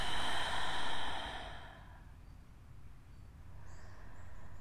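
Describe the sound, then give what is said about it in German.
A deep inhale and full exhale, soft and airy with breathy hiss, strongest in the first second or so and then fading, with a quieter breath swelling again near the end. “Atme hier einmal ganz tief ein und vollständig aus.”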